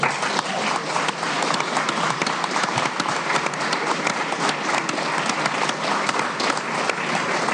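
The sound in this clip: Steady audience applause for a comedian at a live show: dense, continuous clapping that holds an even loudness throughout, with no single voice standing out.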